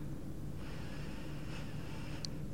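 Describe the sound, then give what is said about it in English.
A slow, deep breath drawn in during a calming relaxation exercise, heard as a soft, faint airy hiss that lasts well over a second over a steady low background rumble. “So let's just relax. Taking deep breaths in”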